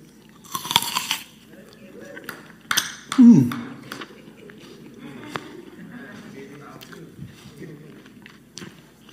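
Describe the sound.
Someone bites into an apple and chews it: a few crisp, crunchy bites stand out, followed by softer, quieter chewing sounds.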